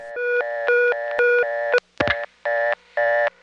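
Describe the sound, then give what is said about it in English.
Tones on a telephone test line as tone C is flashed: a repeating cadence of steady multi-tone beeps, broken by a short burst of clicks, after which the pulsed beeping resumes at the same rhythm. “Anyway, I'm going to flash on this tone C, which will put us back to the main menu, the reorder.”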